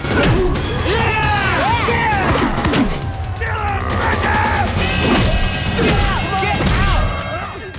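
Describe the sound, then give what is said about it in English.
Punches land in a fight against Goro: many heavy thuds and whacks come in quick bursts, mixed with yells and strained cries throughout. “Art suffers a punishing set of blows to the face. Art flops onto the floor.”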